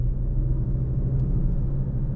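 A car sits in a motorway traffic jam, its steady low engine and road rumble droning evenly throughout, with no voices.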